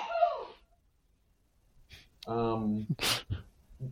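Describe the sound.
One sneeze bursts out between stretches of conversation: a short voiced build-up and then a sharp, hissing explosive burst, with people talking before and after it.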